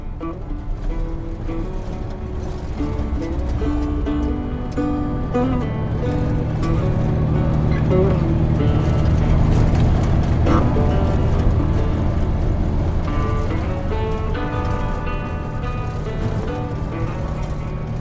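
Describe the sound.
Car being driven to a bar in an audio drama, a continuous vehicle drone with steady tonal hum layered over low rumble, swelling slightly in the middle and holding at a constant level for the whole stretch.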